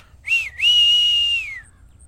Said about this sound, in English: Whistle? Yeah. Whistle like this.